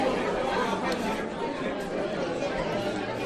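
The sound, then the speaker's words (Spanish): Crowd chatter in a crowded bar: a dense, steady murmur of many overlapping voices with no single words standing out, holding at an even level throughout. “Nuestra cabeza nos ha llevado seguramente a un bar abarrotado de gente. Nos podemos imaginar el trasiego de los camareros de un lado para otro,”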